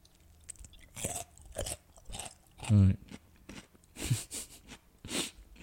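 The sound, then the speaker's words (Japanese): Crunchy cucumber being bitten and chewed as a home-made pickled snack, giving a few sharp, crisp crunches among softer, irregular chewing noises. “キュウリとかやっぱ音もいいっすよね。ちょっと一個食べます。”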